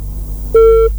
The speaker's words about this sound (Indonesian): Oke, teleponnya terputus nih pendengar.